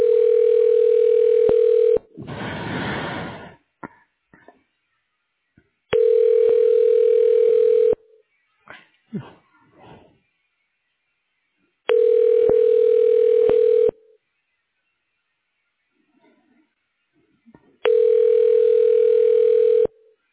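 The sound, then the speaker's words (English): Telephone ringback tone plays while a call is transferred: four steady, evenly pitched rings of about two seconds each, separated by roughly four-second gaps that hold a short noise burst and a few faint clicks. “Thank you for calling. Wait while I transfer your call.”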